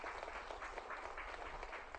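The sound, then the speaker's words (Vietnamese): Faint audience applause greets an audience member's answer: a steady wash of many hands clapping that holds at an even, low level throughout. “Vỗ tay hoan nghênh cho người bạn này.”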